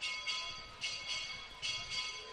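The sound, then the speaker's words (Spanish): A church bell tower rings during a romería procession for the Virgen de la Bella. Several faint, evenly spaced strikes sound in a slow rhythm over a soft outdoor background. “Suena de fondo el campanil”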